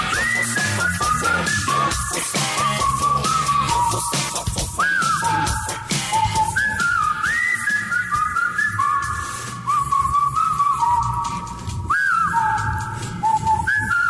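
Whistling from a Mexican rock song: a loud, clear whistled melody repeats in short bending phrases over the band's steady, driving backing.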